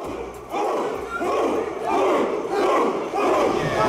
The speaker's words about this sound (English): We're gonna play some sounds right now that are difficult to hear. Many of you will recognize these sounds. All of them are from the streets of Charlottesville in the summer of 2017.